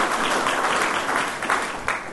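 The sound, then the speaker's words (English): Audience applause at a public event where city and Coast Guard representatives are introduced; dense, steady clapping from many hands runs at a fairly loud, even level throughout, with no voices on top. “So let's have a round of applause for that.”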